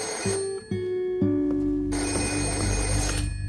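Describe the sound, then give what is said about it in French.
A telephone rings during a 1929 evening scene: bright bell-like ringing tones repeat in short bursts, loud and clear, with no voices. “ce dernier reçoit un mystérieux coup de téléphone.”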